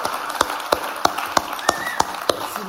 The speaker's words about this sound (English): Would you put your hands together for Steve Bodwell, the man, the myth, the legend.